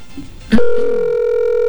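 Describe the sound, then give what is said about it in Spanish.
Telephone tone on an unanswered call: a sharp click, then a single steady, clear electronic tone that starts loud and holds with only a slight fade to the end. “Este es el servicio de contestador para 3, 2, 2, 6, 2. Bueno, Daniela, no contesta.”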